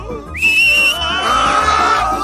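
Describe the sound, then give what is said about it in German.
A sharp whistle calls a flying broom. It rises quickly, then holds high and loud for about half a second, and a longer wavering tone follows. “Auf Roxanas Pfiff hin schüttelte der Besen seine Reiter ab und flog zu ihr.”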